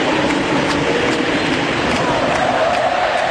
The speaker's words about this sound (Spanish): Escuchen el público, escuchen el público.